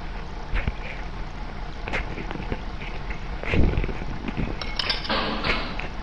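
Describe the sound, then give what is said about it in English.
Clanks and dull thuds of a torpedo being loaded into submarine torpedo tubes in a video game, scattered over a steady mechanical rumble with one heavier thump midway. “There's my attendant loading a torpedo into our torpedo tubes.”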